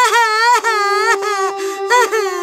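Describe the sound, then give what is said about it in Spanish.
A lost cat cries bitterly in a plaintive, wailing voice: several drawn-out, wavering cries of fairly steady pitch, loud and alone, with short breaks between them. “Habían cubierto una pequeña distancia cuando oyeron un llanto amargo.”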